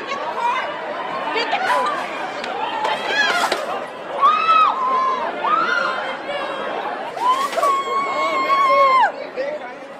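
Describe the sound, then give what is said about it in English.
A Black Friday shopping crowd makes a loud, frantic clamor. Overlapping voices shout and chatter, with raised cries rising above the crowd noise throughout. “I'm sure you've seen those Black Friday horror videos. Hundreds, if not thousands of them have gone viral. They all sound a bit like this.”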